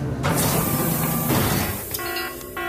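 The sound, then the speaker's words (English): A spacecraft sleeper cabin door releasing as temperature and pressure equalize gives a loud, steady hiss with mechanical noise, ending in a short tonal whir. “Flight computer, release sleeper cabin door immediately.”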